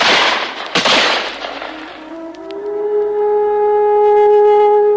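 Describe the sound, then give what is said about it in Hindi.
A loud burst of gunfire in a dramatized battle scene from the Santhal tribal war, noisy blasts with a couple of sharp cracks in the first second, fading into a sustained tonal drone. “कप्तान के मरते ही वृद्ध पर गोलियों की बौछार हुई।”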